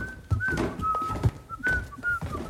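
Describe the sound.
A caretaker whistles as he comes round a corner: a thin, fairly steady high whistle in a few short notes, over soft knocks and rustling.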